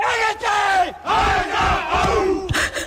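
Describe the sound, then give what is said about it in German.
Rostock team's pre-game war cry before a match, as the players psych themselves up with a few loud, forceful group shouts in short bursts separated by brief pauses. “Und wie sich die Rostocker vor einem Spiel so richtig heiß machen, das hört sich so an.”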